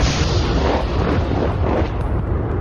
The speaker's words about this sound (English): For 4 days now, they have been taking incoming fire from this group of buildings you can see through the mist.